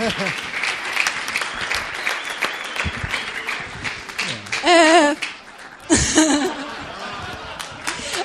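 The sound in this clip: An audience applauds with steady, continuous clapping throughout, broken by two short, louder bursts of laughter and cheering voices.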